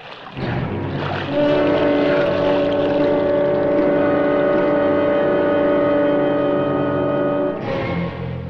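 A houseboat moving away on the water gives a steady droning hum with sustained tonal layers over low rumble. The drone swells in near the start, holds level for several seconds, then cuts off near the end.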